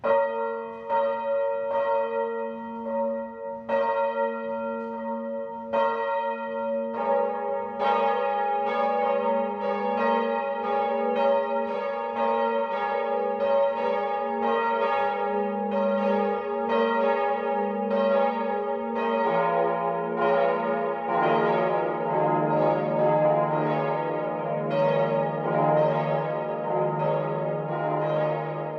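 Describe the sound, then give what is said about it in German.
Noon bells ring out from a Catholic parish church in an Upper Franconian porcelain town. The peal is loud and continuous, with many overlapping strikes that grow denser and fuller as lower bells join partway through. “Es ist 12 Uhr. Das Mittagsläuten kommt heute von der katholischen Pfarrkirche Herz Jesu im oberfränkischen Porzellanort Selb.”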